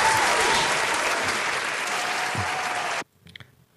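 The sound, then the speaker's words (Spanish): Dense applause, a steady wash of many hands clapping for about three seconds, stops abruptly and leaves only faint scattered sounds. “¿Le damos por lo menos un aplauso o algo a Woody Allen?”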